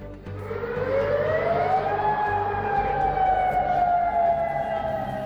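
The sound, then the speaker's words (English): Air raid alert sirens sound across Kuwait, Bahrain, Qatar and Jordan during Iranian attacks on US military sites. A loud, continuous wail climbs in pitch over the first two seconds, then holds high and steady, drifting slightly downward. “Alerts sound across Kuwait, Bahrain, Qatar and Jordan, where the Iranian army says it targeted US military sites.”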